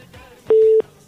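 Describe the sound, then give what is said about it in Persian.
A telephone busy tone after a caller's call dropped: a single steady, mid-pitched beep lasting about a third of a second, loud and clean against faint background. “خب تماس دوست ما قطع شد”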